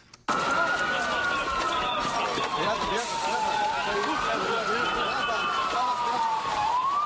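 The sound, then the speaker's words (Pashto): Ambulance sirens in Gaziantep, Turkey, carrying wounded to hospitals after a suicide bombing at a wedding: a loud, continuous wail that slowly sweeps up and down in pitch, repeating over steady street noise. “دا د هغه امبولانسونو ژغونه دي چې د غازی انتاب په سیمه کې زخمیان روغتونونو ته انتقالوي.”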